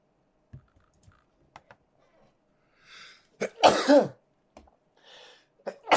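A single sneeze, a sudden loud burst with a brief voiced cry, preceded by a soft intake and set among scattered light clicks and taps.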